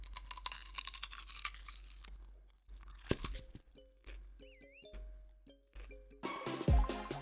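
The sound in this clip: Crunching and chewing as someone bites into a raw, unpeeled onion: many crisp, loud crunches packed into the first few seconds, followed by quieter chewing and other scattered sounds.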